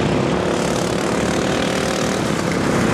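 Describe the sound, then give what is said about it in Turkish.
Modified racing lawn mower engines roar through a nine-hour endurance race in England with 30 teams, the machines reaching about 80 km/h; the sound is a loud, continuous, dense buzzing drone with no voices. “30 takım modifiye edilmiş çim biçme makineleriyle 9 saat boyunca mücadele etti.”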